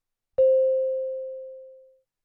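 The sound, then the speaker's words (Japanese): A single clear electronic chime rings once and fades steadily over about a second and a half, with no other sound. “チャイムが鳴ったら、その後に君の名前を続けてね。”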